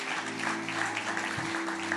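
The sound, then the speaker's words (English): Church audience applauding and celebrating, a steady, soft wash of clapping that holds level throughout, with sustained low musical tones underneath. “Can we just give some praise right now? Can we just clap and celebrate”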